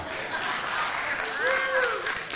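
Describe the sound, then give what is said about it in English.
Teenagers clap for someone in a dense, lively wash of applause, with voices and a whooping cry mixed in near the end. “and there's my teens clapping for me”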